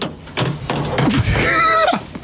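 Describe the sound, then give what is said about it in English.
A telephone handset slammed down in a failed attempt, giving a few loud dull thumps and clunks. “I tried to slam the phone down and it failed.”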